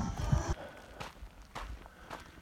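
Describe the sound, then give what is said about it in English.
Footsteps walking along a road just under a mile from a camp: a few evenly spaced, soft thuds at a steady walking pace, fairly faint and with no talk over them. “Walking the road just under a mile from the camp.”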